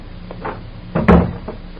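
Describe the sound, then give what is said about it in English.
A door being pushed shut, a few light rustling movements leading into one solid, muffled thud that quickly dies away. “Close the door.”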